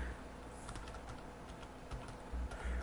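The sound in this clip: Typing a name on a computer keyboard: a run of light, rapid key clicks in an uneven rhythm over faint steady background noise, with no voices.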